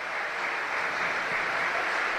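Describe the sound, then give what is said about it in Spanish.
Steady applause fills a football stadium as a player is substituted, a dense, even wash of clapping from the crowd without pauses. “Ojo al aplauso para Miguel Cuesta.”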